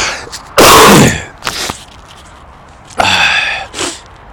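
Two loud, explosive sneezes from allergies, separated by a short quiet gap, each followed by a smaller breathy sound.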